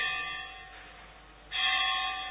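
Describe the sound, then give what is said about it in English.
A bell rings with sustained, humming metallic tones that linger and slowly fade, then a fresh, louder strike brings the ringing back up near the end. “I think this bell is also the symbol.”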